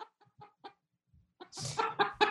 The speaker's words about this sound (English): but you do have a chicken. Oh, yes, you do.